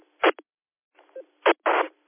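A telephone number is dialed on a keypad. A few short, bright tone bursts come in an irregular rhythm with brief gaps between them, and no one speaks.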